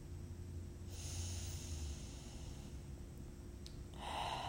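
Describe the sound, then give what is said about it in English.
A full deep breath taken at the close of a guided relaxation exercise. Soft, airy breath noise swells and fades, faint above a steady low hum. “And take one more full deep breath.”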